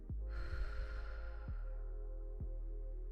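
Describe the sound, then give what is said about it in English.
A deep breath is drawn in and slowly let out during a guided gratitude exercise. Soft low thuds and a steady tonal bed sit beneath it. “Let's take a deep breath in and exhale.”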